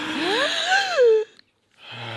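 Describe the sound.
A group draws a big deep breath together, with a wheezy, moaning voiced quality that swells for just over a second and then cuts off abruptly, leaving a pause before another faint, low sound begins.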